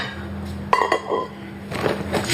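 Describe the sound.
A metal cooking pot being handled, giving a few sharp clinks and knocks over a steady low background hum.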